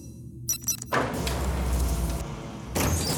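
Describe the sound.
A safe opening after its code is re-entered: a few brief tonal blips, then a sustained broad metallic rush as the door moves, and another loud burst near the end.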